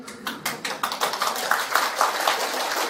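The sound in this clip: An audience at a religious talk claps hands, many quick, fairly faint claps in a steady rhythm, with no talking over them.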